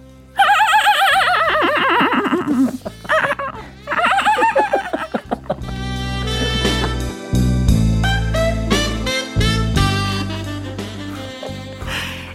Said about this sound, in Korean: 우리 저 조랑말 마차, 우리 저거 타요. 조랑말 마차요?